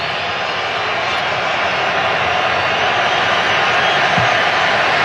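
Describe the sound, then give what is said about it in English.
Crowd booing fills Estadio Azteca during a knockout-stage football match involving Mexico, a loud, steady, dense roar that holds without a break through the whole clip. “Well, the boos echo around the Azteca.”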